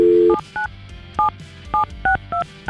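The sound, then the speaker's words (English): A telephone number being dialled for a radio call-in: a longer opening tone, then a run of short, crisp touch-tone beeps, each a clear two-note chirp, spaced fairly evenly. “We have his phone number. We're going to call Thomas now”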